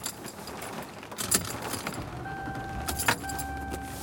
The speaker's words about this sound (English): I am driving home.